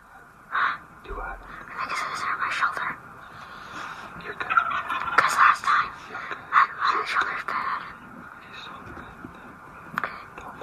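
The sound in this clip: A wild turkey tom gobbles in repeated loud bursts while a hunter calls it in during a turkey hunt, with hushed, whispered voices between the gobbles.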